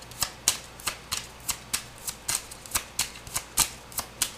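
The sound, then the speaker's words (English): Oracle cards are shuffled and drawn, making many quiet, crisp flicking snaps in a quick, steady rhythm with no talking. “What I'm going to do is I'm going to take some love oracle cards and just see what the energy is right now. I'm just going to take a few.”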